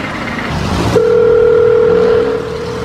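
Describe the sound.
A telephone ringback tone sounds while someone is being called: one steady, clear tone lasting over a second, over a low background hum.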